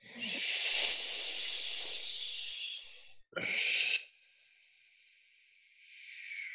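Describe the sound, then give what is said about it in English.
A long breathy exhale out of the mouth during a breathwork exercise, an airy hiss lasting about three seconds, followed by a shorter, sharper breath and then a soft, faint trailing hiss. “And then you're going to exhale out of the mouth.”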